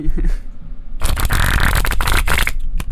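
Playing cards are shuffled as Foley. After a second of quieter sound, a crisp, dense riffling flutter runs loud and continuous to the end.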